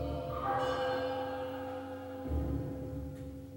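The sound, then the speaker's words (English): Big and little bells ring as part of an instrumental ensemble with cymbals, drums and a gong, giving sustained, layered metallic tones at a steady moderate level with no voices. “the instruments get to do a solo with the big bells and the little bells, the cymbals, the drums, the gong”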